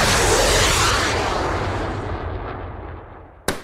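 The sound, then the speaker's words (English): A sound effect of a Sidewinder missile striking a dirigible gives a loud, roaring blast that slowly fades away, then one short, anticlimactic pop at the end. No voices. “let's have that sound effect of a Sidewinder missile deflating a dirigible with an anticlimactic pop again.”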